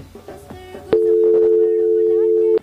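A telephone line tone as a call connects, one unbroken mid-pitched beep lasting under two seconds, loud and steady, after a brief stretch of faint mixed sound.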